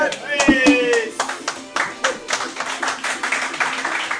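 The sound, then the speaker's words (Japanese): Wedding guests applaud as the groom enters, with steady clapping that runs through the whole stretch and a voice talking near the start. “新郎が、 はい、新郎出てきたら拍手でお願いください。”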